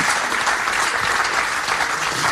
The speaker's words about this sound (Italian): Facciamo un bel applauso.